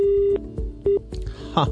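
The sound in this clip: Touch-tone telephone dialing: a few short, steady beeps with brief gaps between them, followed by a voice near the end.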